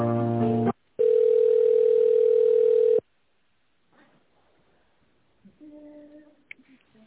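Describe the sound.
Telephone ringback tone while a call is being transferred and connected: a short buzzy burst, then one steady, fairly loud tone lasting about two seconds, followed by near quiet with faint noises.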